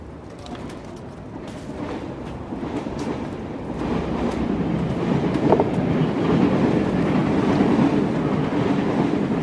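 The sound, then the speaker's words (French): An RER suburban commuter train rides on rails, a steady low rumble with faint rhythmic wheel clicking that grows louder partway through. “Aujourd'hui, quatrième épisode, on commence par prendre un RER.”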